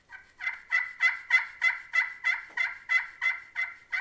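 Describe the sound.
A turkey hunting call imitating a turkey, producing many evenly spaced raspy yelps in a steady rhythm, fairly loud and heard alone with no talk.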